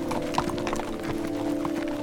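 Hooves of a tired, droop-headed horse clip-clop in many quick, uneven knocks at a moderate level over a steady low hum, with no talk.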